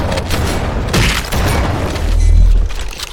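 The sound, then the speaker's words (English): A shotgun blast in a video game, fired into a swarm of small Flood enemies: a heavy boom bursts out of dense, noisy combat sound, followed by a sustained low rumble. “I just killed like 20 of the small flood with one shotgun shot.”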